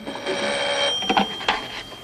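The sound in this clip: A telephone ringing in a hotel room: a steady, moderately loud electronic trill with a few short sharper pulses near the end.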